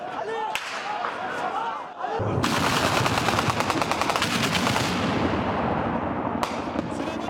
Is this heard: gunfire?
yes